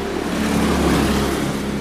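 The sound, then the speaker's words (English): Steady engine drone from a kart doing practice laps on a small motor racing track that runs around a football pitch. The buzzing motor holds an even, continuous pitch throughout, with no speech. “and if you can hear a motor in the background. Running around the pitch is a little motor racing track.”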